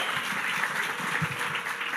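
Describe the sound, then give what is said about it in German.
Audience applause for a British translator during a church sermon: a dense, steady wash of many hands clapping at moderate volume, unbroken for the whole stretch with no voices on top. “Gebt ihm einen riesen Applaus.”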